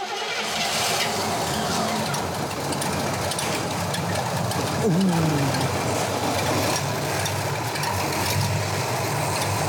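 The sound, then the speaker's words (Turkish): A car engine idling smoothly at low speed after being started: a steady, even low rumble that holds throughout with no misses or surges. “Rolant hızı düşük ama çalışıyor. Harika çalışıyor. Hiç ses yok.”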